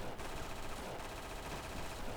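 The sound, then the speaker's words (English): Rapid automatic gunfire in a video game, a dense, loud, continuous stream of shots that fills the whole stretch without a break. “God, would you stop shooting me?”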